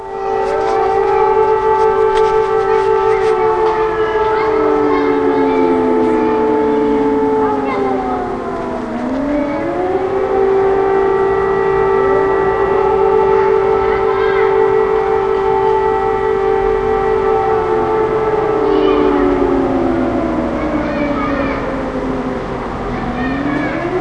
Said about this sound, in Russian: И вновь в который раз взвыла сирена воздушной тревоги.